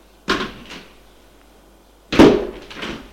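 A cupboard door is opened: a sharp wooden click-thud, a pause, then a louder knock with a short rattling tail, both distinct against near silence.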